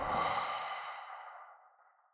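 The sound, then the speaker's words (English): A long breath is exhaled out through the mouth during a belly-to-chest breathing exercise, one soft, breathy whoosh that starts fullest and steadily tapers away to silence, quiet and alone. “Inhale into the belly. Up to the chest. Out the mouth.”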